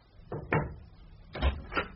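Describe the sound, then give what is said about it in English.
A servant knocks at a door: four faint, muffled knocks come in two pairs, separated by a short pause. “However, we were interrupted in our deliberations when one of the servants knocked at the door.”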